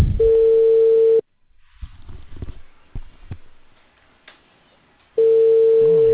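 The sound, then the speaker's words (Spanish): An outgoing telephone call gives its ringing tone: two steady, even-pitched beeps about a second long, roughly four seconds apart. Faint rustling and low knocks fill the quiet gap between them. “Ya estoy timbrando yo.”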